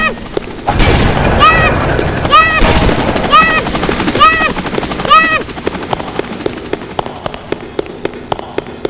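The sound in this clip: A helicopter in a video game, amid gunfire. A heavy rotor drone is swept by about five swooping whooshes, then gives way to a long run of sharp, evenly spaced shots.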